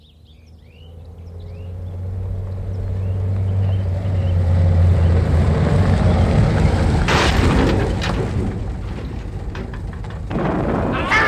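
A new car plunges into a ravine: a deep engine rumble swells steadily for several seconds, then gives way to loud, crunching crash noise and rattling, with another burst of crashing near the end.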